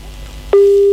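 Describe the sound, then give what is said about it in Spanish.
A telephone busy tone after a caller's line drops during a phone-in call. Faint line noise gives way abruptly to a loud, steady, mid-pitched tone that holds unbroken to the end. “se le cortó la llamada a mi viejo.”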